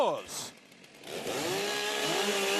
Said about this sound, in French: On a des épreuves à la hache, à la scie et à la tronçonneuse. Et on commence justement par la tronçonneuse.